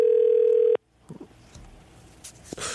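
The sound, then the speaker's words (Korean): Telephone dial tone as a call is placed, a loud steady hum lasting under a second before it cuts off, followed by faint clicks and a short tone at the end. “7448님 전화 한번 걸어봅시다.”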